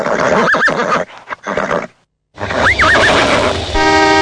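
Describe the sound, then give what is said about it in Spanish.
A cart horse that has balked and refuses to move on a city street whinnies twice in high, wavering bursts separated by a brief silence. A steady horn-like tone sounds near the end. “Pará, pibe, se me empacó el caballo.”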